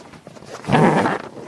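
Heavy cord holding canvas to a troop bunk frame is cut with snippers and a knife, giving a single rough, rasping cut of about half a second that stands out from quiet surroundings.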